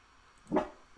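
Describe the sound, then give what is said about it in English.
A single short dog bark, faint and alone against a quiet background. “No, that was barking dog.”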